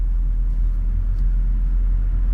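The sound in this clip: Steady low rumble of a car being driven, a constant engine and road drone with no notable change.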